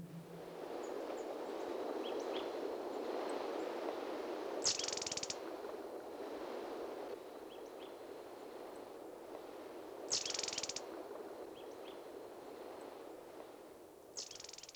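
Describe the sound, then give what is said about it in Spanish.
Wind, mountain tanagers and a flycatcher in Colombian countryside: a soft, steady hiss of wind throughout, broken by three short, high buzzy call bursts spaced several seconds apart, all faint. “Se oye la voz del viento y la de las tángaras de montaña. Y un atrapamoscas que después de sus vuelos furtivos regresa siempre a la misma ramita.”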